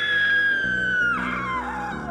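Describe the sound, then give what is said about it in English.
A woman's startled scream rings out as one sustained, loud, high-pitched cry that slides downward in pitch partway through and holds on to the end. “She darts her head around to look behind her and lets out a startled scream.”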